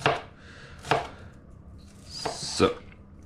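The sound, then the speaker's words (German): Knife chopping food on a board while preparing a Flammkuchen, cutting the second half: a few sharp, dry cuts at irregular spacing, with no talk. “Dann nehmen wir die zweite Hälfte. Und schneiden uns dann hier.”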